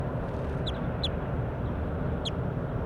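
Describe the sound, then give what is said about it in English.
Bird calls exchanged back and forth, three brief, sharp, high-pitched notes spaced irregularly over a steady low background hiss. “Calling back and forth, bird 4-8.”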